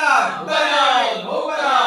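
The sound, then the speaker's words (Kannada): A crowd of many voices shouts together in cheers to welcome a king, a loud, sustained massed cry with a brief dip partway through. “ಎಲ್ಲರೂ ಜಯಘೋಷ ಮಾಡಿ ರಾಜರನ್ನ ಬರಮಾಡಿಕೊಳ್ಳಿ.”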